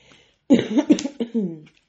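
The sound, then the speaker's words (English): Throat clearing by a person, a short burst of voiced, gravelly rasps lasting about a second, fairly loud against an otherwise quiet background, with no words spoken. “Apologies for my rude clearing of my throat chakra.”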